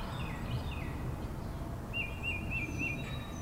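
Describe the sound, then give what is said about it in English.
Birds chirp outdoors with faint, thin, high trills and short whistled calls, the clearest run coming midway, over a soft low background hum with no talking. “Listen to the birds chirping.”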